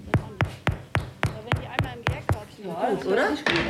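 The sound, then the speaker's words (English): Knuckles knock on freshly baked bread loaves to test doneness, giving nine even, hollow raps in a steady rhythm before a voice begins talking. “So, jetzt machen wir mal die Klopfprobe.”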